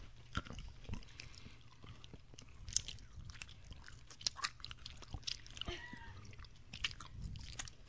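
Someone bites into and chews a turquoise jelly bean with purple specks: many faint, crisp clicks and squelches come in an irregular rhythm, all at low volume.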